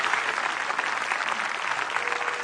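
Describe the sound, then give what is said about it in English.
Audience applause welcomes children as they come onto a stage. The clapping is dense and steady, holding at an even level from start to finish. “So as the kids are coming in, let's just clap and say, hey, we're welcome.”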